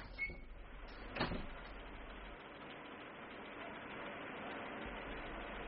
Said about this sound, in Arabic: افتح الباب.